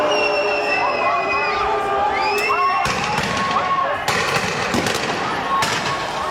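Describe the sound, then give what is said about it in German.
Riot noise from a Geneva street after a demonstration in June 2003, during a G8 summit, with police using water cannons, rubber bullets and tear gas: a shouting crowd and high whistles, then several sharp, loud bangs. “In Évian-les-Bains ist damals der G8-Gipfel und in Genf wüten nach einer Demonstration Chaotinnen und Chaoten und Vandalen. Die Polizei schreitet mit Wasserwerfern, Gummigeschossen und Tränengas ein.”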